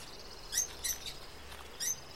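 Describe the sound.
A bird calls in an aviary with a few faint, high, brief chirps spaced irregularly over a quiet background.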